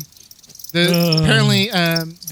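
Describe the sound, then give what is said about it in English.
A cricket call, identified as the Indies short-tailed cricket, rings out as a loud, continuous, high-pitched pulsing drone with a dense buzzy texture. It starts abruptly after a faint lead-in and dips briefly near the end. “the Indies short-tailed cricket. I was gonna say that, but I was gonna let it play.”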